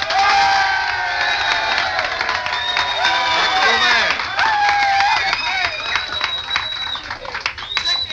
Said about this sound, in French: A touching ovation